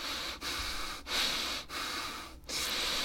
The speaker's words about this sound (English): Sounds like you need an inhaler for all that wheezing.